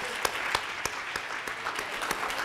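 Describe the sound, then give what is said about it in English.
A church audience applauds for children after a choir and praise dance performance, clapping together in a steady rhythmic beat of sharp claps about three per second over a dense wash of applause. “Can we give them another round of applause?”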